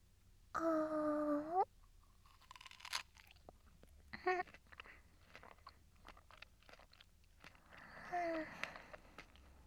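Someone chews food, making soft, crunchy bites and irregular chewing clicks, with a few brief voiced murmurs in between.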